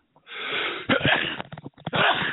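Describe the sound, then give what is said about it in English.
A person with a cold or allergies sneezes: a harsh, breathy, explosive burst broken into a few rough gusts with snorting, wheezy breaths. “Sorry about that sneeze, folks. I'm sure that was really annoying, but I'm catching a bit of a cold or allergies or something.”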